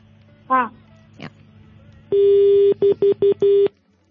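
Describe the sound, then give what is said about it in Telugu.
A phone-in call is cut off with a disconnect busy tone. After two brief chirps comes a steady electronic tone, then four short, evenly pitched beeps, loud and clear. “Call disconnect చేస్తావా, వేరే పిల్లలు కూడా మాట్లాడతారు.”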